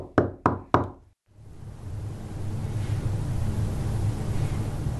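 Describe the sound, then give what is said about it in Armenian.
Knocking on a door early in the morning: three sharp, evenly spaced raps, then a brief silence and a steady, even hiss. “Հաջորդ օրը վաղ առավոտ դուռը ծեծեցին։”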